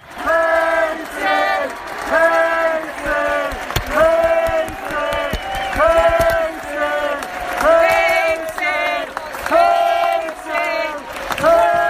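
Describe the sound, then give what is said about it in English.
A rugby league crowd at Parramatta Stadium gives a standing ovation to a former hooker during an Eels versus Rabbitohs match, loudly chanting a two-syllable name in a steady rhythm, repeated many times without a break. “What you're hearing there is the entire crowd at Parramatta Stadium standing up and giving our previous hooker, Nathan Peats, a standing ovation and chanting Peatsy, Peatsy, Peatsy.”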